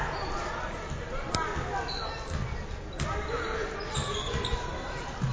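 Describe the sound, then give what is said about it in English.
Basketball being dribbled on a court during a game, with a few sharp bounces over steady crowd noise. “Jalen Johnson on the dribble.”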